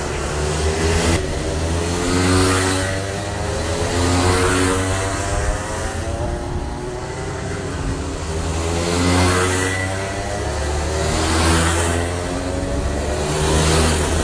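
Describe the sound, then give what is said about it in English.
DMax 125cc racing karts circling a kart circuit in Tamworth during a race heat, their engines a loud, buzzing, high-revving drone that swells and fades in waves as the pack comes around, with no talk. “These are the DMax 125cc racing karts. Here they come around.”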